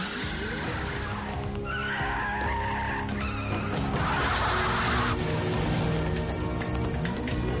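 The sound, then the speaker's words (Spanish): A car reverses and then speeds away during a chase in a 1999 action thriller film, with a loud, continuous engine roar and screeching, squealing tires throughout. “Al no poder avanzar, Nick da marcha atrás y escapa en otra dirección en busca de los malhechores.”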